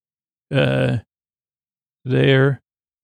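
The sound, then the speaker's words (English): A man huffing, out of breath as he comes down the stairs, giving two voiced, groaning exhales of about half a second each, separated by a pause and heard alone. “the janitor is a little bit out of breath as he gets towards the bottom, huffing”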